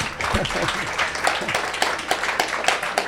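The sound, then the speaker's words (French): Audience applause at a public talk on space launchers: dense, crackling clapping that runs through the whole clip, with voices briefly audible over it at the start. “On l'applaudit”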